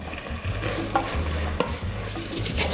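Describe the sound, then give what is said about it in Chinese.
Tomatoes simmering in curry sauce in a pan are stirred, with a steady sizzle and bubbling under a few scraping strokes of the spoon across the pan, and no voices. “番茄 加进去，好，下去焖煮，焖煮一下。”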